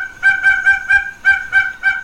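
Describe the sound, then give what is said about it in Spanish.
A double-striped thick-knee calls, recorded at a house in Juchitán, Oaxaca, Mexico. The bird gives a rapid series of seven loud, nasal, cackling notes, with a brief pause partway through. “Estamos escuchando un alcaraván, un ave maravillosa del sureste de México, grabada en Juchitán, Oaxaca, en la casa del señor Ricardo Santos Velázquez.”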